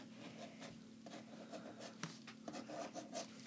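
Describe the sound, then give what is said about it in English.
Scratchy pen strokes on paper as boxes are drawn, a steady run of short rubbing scrapes at an even pace, quiet, with no voices. “I'm gonna just draw boxes, and we can write in what they are.”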